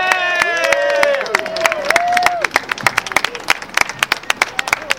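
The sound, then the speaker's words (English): Applause and cheering from a crowd at a workers' rally over wage theft, with whooping voices early on, then many sharp, uneven claps that continue after the cheering thins out. “Let's hear it for those brave, brave workers.”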